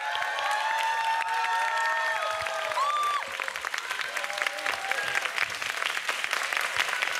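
Concert audience applause and cheering as a guest singer is brought on stage, a dense, loud, steady clapping roar that fills the whole stretch, with brief high voiced cheers rising above it early on.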